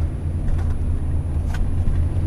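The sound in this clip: A car drives along with a steady low engine and road rumble, loud and even, with no voices.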